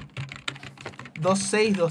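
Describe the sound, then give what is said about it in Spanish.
A computer keyboard typing effect plays as a quick run of light key clicks, played in by the studio operator. A voice then speaks over the final part. “Que el operador justo metiendo el sonido de teclas.”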